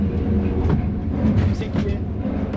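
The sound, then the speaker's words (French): A train rolls slowly along rails at about 18 km/h on a line limited to 60 km/h, making a steady, heavy low rumble with faint rattling and a voice murmuring over it. “18 km/h? Oui, on est autorisé jusqu'à 60 à l'heure. C'est pas un train qui va très vite?”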